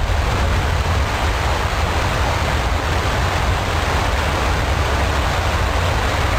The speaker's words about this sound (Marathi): धबधब्याच्या मागच्या बाजूला गुहेसारखी जागा आहे. इथं थांबून आपण धबधबा पाहू शकतो.